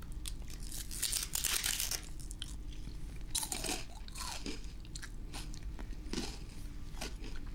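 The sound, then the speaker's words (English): Crisp crunching and chewing as someone bites into and eats a cracker: many irregular, brittle crunches and crackles at a quiet level, with no talk over them. “Here, let's eat this yummy cracker.”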